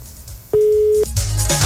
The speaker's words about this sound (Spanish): Se cortó la comunicación.